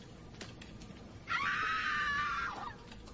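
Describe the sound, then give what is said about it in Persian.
Scream sound effect: one long, high, piercing shriek that holds a fairly steady pitch for over a second, rising abruptly out of a low background hiss and then cutting off. “جیغ خوبه صدای جیغ به هم بدین”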